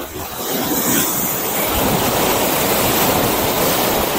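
Ocean waves wash in as the tide comes in, making a loud, steady, continuous roar of breaking surf. Wind buffets the microphone throughout.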